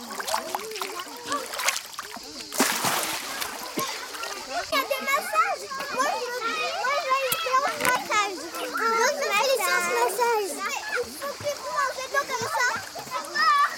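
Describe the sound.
A child splashing while swimming in water, a continuous wash of splashes under steady, lively children's voices talking and calling throughout.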